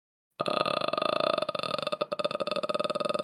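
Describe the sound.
A human voice imitates the croaking noise of a horror-film ghost: a loud, guttural, creaking rattle made of rapid throaty pulses, sustained for about three seconds after a moment of silence.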